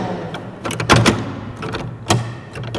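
An old door being closed gives a few sharp wooden clunks and knocks, with a loud cluster near the middle and one more firm knock shortly after, all over a low background hum.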